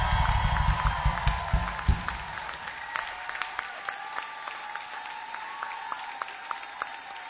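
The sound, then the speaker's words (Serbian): Audience applause for a band at a concert, a burst of clapping that thins out after the first couple of seconds into scattered claps, with a faint steady tone running beneath. “Zamolio bih vas za jedan gromoglasan aplauz za Silente koji su bili pred nas.”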